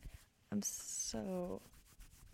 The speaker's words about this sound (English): With the fact that you guys can just like very ASMR hear me rubbing my denim shirt. I'll try to stop though, because it's kind of annoying